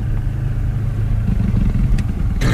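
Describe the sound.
Quad bike engine running on a dirt track, giving a steady, fairly loud low rumbling drone throughout.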